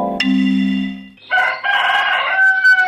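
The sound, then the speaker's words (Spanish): A rooster crows in the morning: a loud, drawn-out call that opens on a sustained note and then turns raspier and fuller, alone without voices. “Abrí el ojo con el primer canto del gallo esa mañana.”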